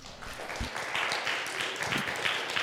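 Applause from a church audience welcoming a guest preacher, a steady, even wash of clapping that holds at a fairly low level without a clear peak or fade.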